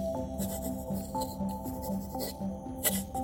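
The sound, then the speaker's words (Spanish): Pen writing a letter on paper, giving soft, irregular scratching strokes at a low, steady level. “hoy además quiero escribirle una carta y de paso poner a prueba la eficacia del correo mexicano. Ya tengo pluma y papel.”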